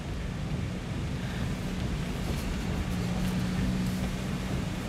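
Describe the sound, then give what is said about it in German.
Strong storm wind blows across a road while a car drives through it, a dense, steady roar that stays loud and unbroken from start to finish. “Der Sturm ist so stark, dass er den Wagen fast von der Straße weht.”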